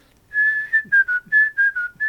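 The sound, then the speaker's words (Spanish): A person whistles a tango melody in a hotel elevator, producing clear, pure, sustained notes in a short melodic phrase that steps gently up and down, with brief gaps between notes and no talking. “mientras íbamos subiendo yo empiezo a silbar”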